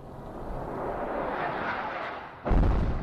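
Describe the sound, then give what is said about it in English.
Explosions in a war zone in Raqqa, Syria: a dense, continuous low rumble and roar, then a sudden louder boom near the end that keeps rumbling. “that's reportedly the sound of explosions in the ISIS stronghold of Raqqa in Syria.”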